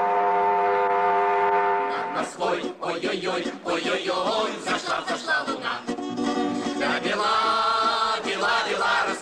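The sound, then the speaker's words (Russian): A train travelling, with a sustained multi-toned whistle at the start and again near the end over continuous rumbling clatter throughout. “Поезд шел в Черноморск.”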